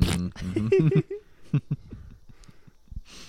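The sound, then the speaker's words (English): A voice imitating a camel spitting: after brief speech, a few wet, sputtering spit-like bursts of varying loudness. “You're just doing the camel spits.”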